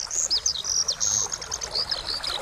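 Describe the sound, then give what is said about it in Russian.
Spring birdsong from rooks, starlings and larks returning in late March: a steady stream of high, bright chirps, whistles and short trills, overlapping almost continuously at moderate loudness. “В конце марта к нам возвращаются грачи, скворцы и жаворонки.”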